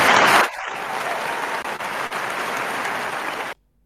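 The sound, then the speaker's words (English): Badly reproduced clapping sound effect: a harsh, loud burst followed by a steady, hissy wash of applause-like noise lasting about three seconds, then cutting off abruptly into silence. “What the fuck sound was that? That was supposed to be claps, but that's... sounds terrible.”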